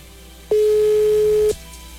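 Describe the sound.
Ringing tone of an outgoing telephone call: a single steady, mid-pitched tone lasting about a second, loud over a faint hiss, with no talk.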